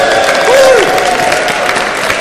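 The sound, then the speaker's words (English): An audience at a live event gives a round of applause for the man handling the microphone: a short stretch of dense, even clapping from many hands that holds at a steady, loud level throughout. “Give Scott a round of applause.”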